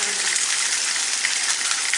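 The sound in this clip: Fish sizzling as it fries in a pan, a steady, loud hiss with fine crackling pops that never lets up.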